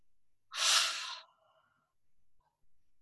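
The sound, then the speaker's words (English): A person inhales sharply through the nose in a single brief, hissing rush of air that lasts under a second, followed by near silence and a couple of faint breaths. “So in through the nose, out through the mouth. Okay. So inhale.”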